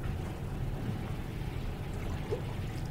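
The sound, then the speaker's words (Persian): A steady pour of sharbat, a sweet drink, with a continuous trickling wash of liquid that keeps an even loudness from start to end and no voices over it. “میخوری شربت؟ بریز ببینم”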